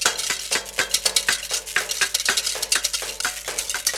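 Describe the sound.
Two pot lids struck together and a whisk stirring in a pot, played like kitchen instruments, make a busy, steady stream of bright clanks and scraping clatter, with many quick hits throughout.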